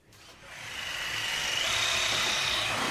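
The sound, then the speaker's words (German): A power tool whirs during building work in a historic building complex, its high whine swelling in loudness and then holding steady. “immer noch wird im Gängeviertel gesägt, gehämmert, geschraubt, dekoriert.”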